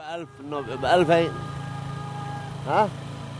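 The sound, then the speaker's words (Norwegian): Car driving through Sanaa, Yemen, on the way to a street market, a steady low engine hum running beneath people talking inside the vehicle. “vi kjører til en av de mange gatemarkedene i hovedstaden Sanaa”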